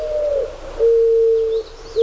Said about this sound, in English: so talking about this dove, why is it called a mourning dove? Because of the coos are described as sounding very mournful.